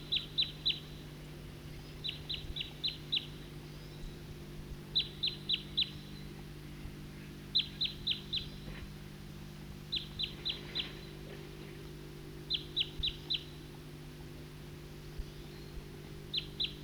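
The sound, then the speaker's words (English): A flock of birds of one call type, type 2, flies over, giving faint clusters of high, thin chip notes that repeat every two to three seconds over a steady low hum. “I just played that back, and while I did that, a number of type 2 birds flew over and went to the southeast,”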